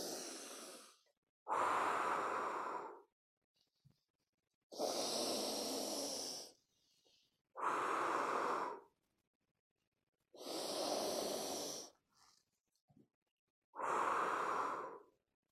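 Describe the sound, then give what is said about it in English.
Long, breathy exhales with a drawn-out whoo sound, done as a calming breathing exercise. Several strong whooshes are separated by quiet pauses, with a softer breath at the start. “The sound for the water element is WHO. So every exhale I make is gonna have that sound.”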